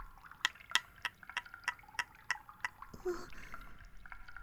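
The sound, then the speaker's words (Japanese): A cotton swab is soaked and worked in baby oil for ear cleaning, giving a regular run of crisp, wet little clicks. A softer, smeary squelching follows, all quiet and close. “綿棒でオイルをかき混ぜる。あ、ではなく、綿棒にオイルをなじませている。”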